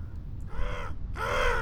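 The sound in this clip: Two harsh, raspy crow caws, the second louder and longer than the first, sounding alone over a steady low rumble.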